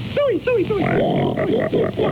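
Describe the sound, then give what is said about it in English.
A voice imitates a pig oinking and grunting in a cartoon: a few falling squeals, then wavering, sung grunts, loud and continuous. “Wait, hey, wait till you hear my singing pig.”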